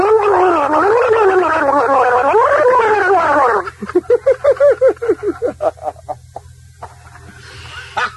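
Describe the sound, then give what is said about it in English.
A person gargles loudly in a gargling contest, first with a long warbling, voiced bubbling tone, then with many rapid, choppy gurgling bursts that grow quieter toward the end. “what you have to do is gargle just a tad louder than he does”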